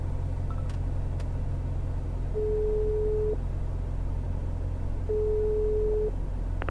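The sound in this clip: Ringback tone of a telephone call: two steady, moderately loud tones of about a second each, separated by a pause of nearly two seconds, heard over a constant low rumble.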